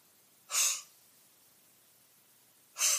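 Two deep, breathy inhales are drawn in to demonstrate inspiration. Each is a short, hissing intake of air, separated by near silence.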